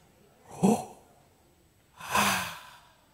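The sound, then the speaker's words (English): Two deliberately exaggerated human breaths: a short, sharp one, then after a pause a longer, breathier one, heard alone without talk. “See, the thing about breath is you don't pay attention to it because it's something that you subconsciously do for survival. So I'm exaggerating it so you can hear it”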